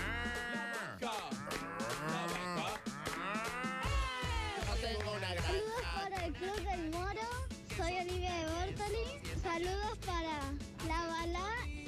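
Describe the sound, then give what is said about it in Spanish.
Cow mooing, several drawn-out, wavering moos in the first few seconds, with voices and lively sound continuing throughout. “La vaca.”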